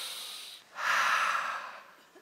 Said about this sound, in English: Everyone, take a breath.